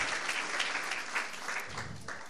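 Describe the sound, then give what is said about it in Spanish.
Applause from a church audience during a Spanish-language sermon, a dense, even patter of many hands clapping that runs steadily from start to end at a fairly faint level. “Dele un aplauso ahí para que se calme un poquito.”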